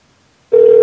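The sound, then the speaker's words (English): A telephone rings with a single short electronic tone: a steady, clear mid-pitched note that starts abruptly after silence and cuts off just as sharply. “This other phone rings a lot.”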